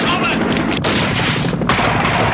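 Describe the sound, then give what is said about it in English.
Helicopter gunfire in an action film scene: a loud, dense, continuous burst of crackling shots with two brief breaks. “The helicopter gunfire continues as guards hurry around the perimeter.”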